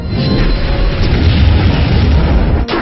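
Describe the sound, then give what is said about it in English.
A heavy booming roar marks a meteor rush attack landing in a monster-battling video game. It is loud and continuous for about two and a half seconds, then cuts off abruptly with a brief dip before the end. “Select use energy for meteor, Enchantathal used meteor rush.”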